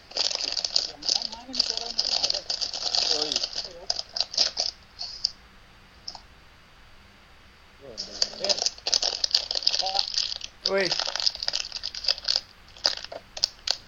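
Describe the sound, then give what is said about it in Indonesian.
A package wrapper is torn open with bursts of crisp plastic crinkling and crunching, broken by a quiet pause in the middle, while people talk over it. “Ini siapa yang buka bungkusan dah?”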